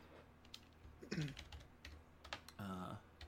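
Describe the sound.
Typing on a computer keyboard: quick, uneven bursts of light clicks and taps, with people talking faintly over them.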